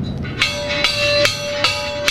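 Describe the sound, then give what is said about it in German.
A ship's bell that once called passengers to meals aboard another ship rings in five evenly spaced metallic strikes over a steady underlying hum. “Diese Glocke rief auf einem ganz anderen Schiff einst die Passagiere zum Essen.”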